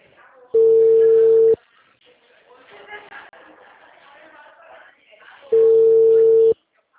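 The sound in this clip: Ringing tone on an outgoing telephone call: two loud, steady tones, each about one second long, separated by roughly four seconds of quiet with faint background chatter.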